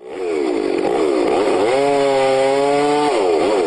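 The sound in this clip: A chainsaw cuts timber during logging in the Tongass National Forest in Southeast Alaska. The engine holds a loud, continuous buzzing whine, shifts pitch as it revs, and then settles back.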